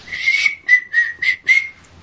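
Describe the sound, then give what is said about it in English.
A person whistles a short tune of five clear, fairly loud notes. The first note is long and the other four are shorter and evenly spaced, with no other sound present. “You gotta work on your Whistle.”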